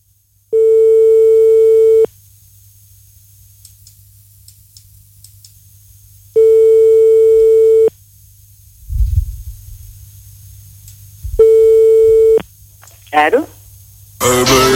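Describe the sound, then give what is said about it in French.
Telephone line tones while a number is dialed: three long, steady ringing tones separated by silent gaps, with a few faint clicks between them and a short burst of noise at the end. “On compose le numéro de téléphone.”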